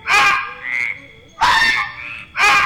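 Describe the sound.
A toad croaking: three loud, harsh, buzzing croaks spaced apart, with a softer, thinner call between the first two.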